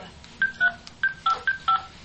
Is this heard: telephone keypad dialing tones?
yes